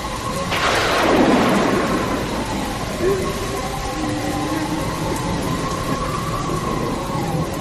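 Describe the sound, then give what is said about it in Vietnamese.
A heavy thunderstorm late at night, opening with a loud, rolling thunderclap that fades into a steady, dense roar of pouring rain and wind. “trời bỗng sấm chớp nổi lên liên hồi rạo rỡ, và tiếp sau là một trận mưa gió bão bùng”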